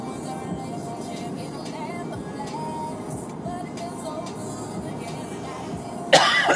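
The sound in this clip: Coughing and throat clearing from someone who has inhaled dust. A sharp, loud burst comes at the very end after a steady stretch of low background noise.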